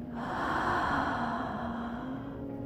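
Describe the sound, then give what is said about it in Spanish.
One long, deep exhale during a guided meditation breathing exercise, a soft, steady breathy rush lasting about two seconds over a low sustained tone. “Respira profundo. Y siente el aire entrando por todo tu cuerpo. Exhala.”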